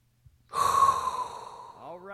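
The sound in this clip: A deep inhaled breath from a comedian during a comedy talk session, a steady breathy rush lasting over a second before a voice briefly starts at the end.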